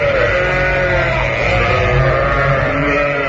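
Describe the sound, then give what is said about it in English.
Sheep bleating from a gramophone record: a loud, dense chorus of many overlapping wavering bleats, steady and unbroken throughout. “Whilst that record of sheep is being played”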